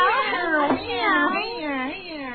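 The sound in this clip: Cat meowing: a few wavering, tonal meows rise and fall in pitch, fairly loud and run together over about two seconds.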